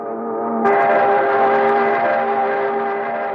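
Factory horn sounding outside the factory office: a long, steady, mournful wail with a rich tonal pitch. It starts softer and swells louder, then holds for the whole stretch.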